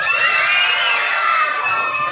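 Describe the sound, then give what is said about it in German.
Schoolchildren scream and cheer with joy at a class election result, a continuous high-pitched shrill of many voices held at a steady, loud level. “Wir haben so richtig geschrien, weil wir haben uns so gefreut.”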